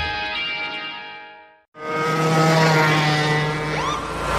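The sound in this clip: A lawnmower engine runs at speed on a residential street, a loud, steady, harmonic drone that briefly drops out, then returns louder and rougher.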